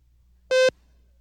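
A single short telephone call signal tone, a steady buzzy beep with a rich stack of harmonics, lasting about a fifth of a second against near silence.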